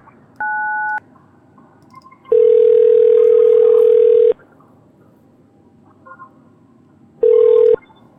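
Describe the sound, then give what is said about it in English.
A telephone ringing while a call is being transferred: a short two-tone beep, then a steady ring tone lasting about two seconds, a long quiet pause and a second, much shorter ring burst, with no voices. “I'm not going to put you on hold. It's just going to ring for a moment”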